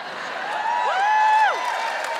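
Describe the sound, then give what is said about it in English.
Audience cheering at a Wellington event on getting involved in politics: a steady bed of crowd noise with a few high rising-and-falling whoops that swell in the middle, then ease back. “Just give us a cheer if you think you could be slightly more involved than you are in how Wellington is run.”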